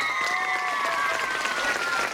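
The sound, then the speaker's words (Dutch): Crowd applause from packed stands in a Rotterdam gymnastics hall for the day's gymnasts, with continuous, dense clapping and a thin steady tone running through it. “Voor de mensen op de tribune, geef ze een geweldig applaus onze turnsters van vandaag.”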